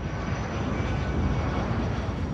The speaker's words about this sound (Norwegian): Tel Aviv da jumbojeten fra Lufthansa foretok en mildt sagt spektakulær landing for å unngå raketter